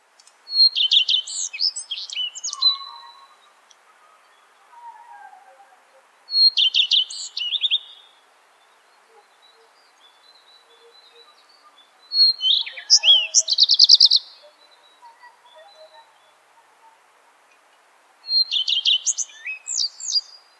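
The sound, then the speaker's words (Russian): A redstart sings four loud, high-pitched, twittering song phrases separated by pauses of several seconds, with faint lower chirps in between. “Горехвостка.”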